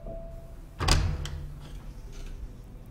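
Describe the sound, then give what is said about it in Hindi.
A door being opened: a sudden solid clunk, followed by a few fainter clicks and rattles over a low, quiet background. “खोल दो,”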